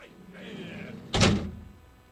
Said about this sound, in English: Now, let me slam big-ass door here.